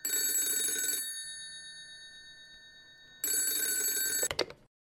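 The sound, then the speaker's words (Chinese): A telephone rings in a detective agency office. Two bright, steady bell-like rings are separated by a pause, and a short burst of clattering follows the second ring. “有电话。”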